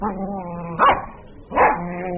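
A long-haired dog gives two sharp barks, less than a second apart, over a faint sustained tonal background.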